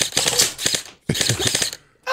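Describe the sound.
Shots are fired downrange at a person in rapid, rattling strings, two long bursts split by a short pause, with a third burst starting at the very end. The pops are loud and dense, with no talk over them.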